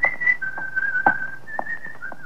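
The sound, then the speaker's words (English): A person whistles a simple, wavering tune while walking along the street. The clear, fairly high whistled notes are steady and mostly sustained, with a few soft knocks beneath. “And then you walk along the street, whistling in the light for a change.”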